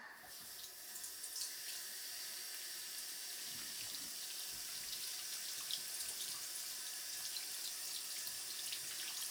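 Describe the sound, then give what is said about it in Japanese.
Tap water runs steadily into a sink while soapy hands are rinsed under it. It makes a soft, continuous hiss that stays fairly quiet throughout, with no talking. “あわあわあわあわ。はい、流しましょう。”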